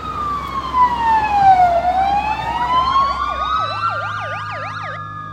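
Police sirens blare loudly, a long sweeping wail that falls then rises before switching to a rapid yelping pattern, with overlapping siren tones and a low vehicle rumble underneath.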